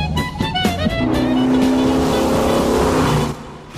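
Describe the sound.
Car engine drones through an all-night drive, a loud continuous roar with a humming tonal whine that holds steady and then drops off near the end.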